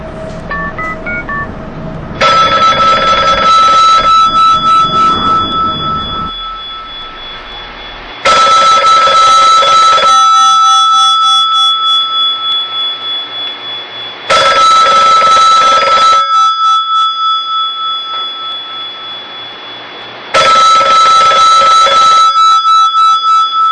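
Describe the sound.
A telephone rings at the start of a recorded phone call, with four loud electronic ring bursts at a steady interval, each fading into a ringing tail before the next begins.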